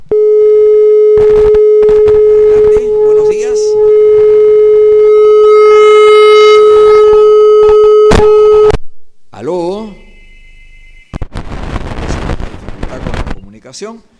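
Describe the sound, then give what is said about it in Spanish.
An incoming phone call sounds as a loud, steady electronic line tone held for about nine seconds. Brief warbling, voice-like sounds and crackling line noise follow. “Tenemos una llamada telefónica. Vamos a escucharlo.”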